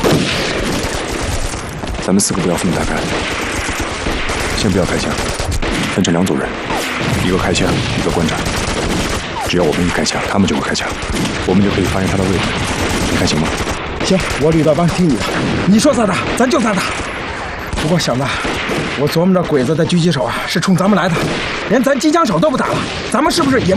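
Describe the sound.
Heavy machine gun fire from an enemy position in a wartime battle: loud, continuous rapid bursts of gunshots with dense, crackling reports filling the whole stretch and no pause.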